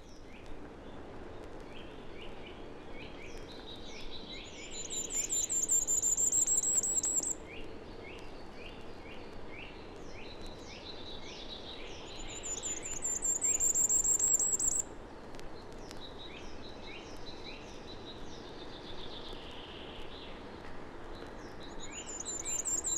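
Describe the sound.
High, thin song of a tiny 6–7 gram European songbird that builds a ball-shaped nest in tall firs, spruces and Douglas firs. The song comes in a few bright bursts over steady hiss, with faint chirping between.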